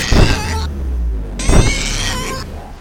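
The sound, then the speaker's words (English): Mirrors fall from the walls and crash onto a mirror-covered floor in two loud, sharp impacts. Each impact is followed by a bright, sustained shimmer that stops abruptly. “At that instant, Wipo pulls on a rope and mirrors fall from the walls and crash into the mirrors that cover the floor.”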